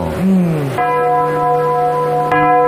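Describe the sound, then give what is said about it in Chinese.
A clock tower bell chimes with rich, ringing tones and long sustained overtones, struck again near the end, loud and resonant, following a brief low swooping tone at the start. “您记得当时这个钟声是什么声音吗？ 就是现在这个声音。”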